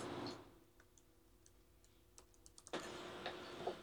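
Faint computer-keyboard typing as code is entered quickly, a run of irregular light clicks that grows denser toward the end, with no talk.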